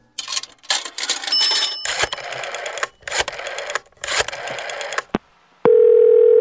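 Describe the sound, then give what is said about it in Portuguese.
Telephone tone while calling a listener: several bursts of clattering, clicking noise give way to a steady, loud, unbroken tone that holds to the end. “Vamos ligar pra ele.”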